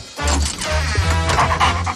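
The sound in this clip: A dog gives short, whiny, yipping vocal sounds in a steady string lasting about two seconds, fairly loud, with no talk over them.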